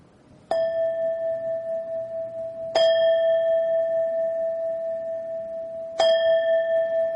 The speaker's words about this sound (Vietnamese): Rồi khi mình thỉnh chuông á, mình đừng có thỉnh nhanh. Cái tiếng chuông của mình nó phải khoan thai.